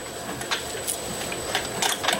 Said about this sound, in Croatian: Popravljajući harmonike naučio je i da šije. Morao je da prepravi mašinu. Zato što je jako precizno i zahtjevno, mnogo je debelo. Zbog toga mora što sporije da radi mašina,